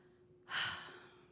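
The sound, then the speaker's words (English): A single deep breath: a breathy hiss swells suddenly and fades over about a second, with a faint steady tone underneath. “Like right now, just take a breath in and out.”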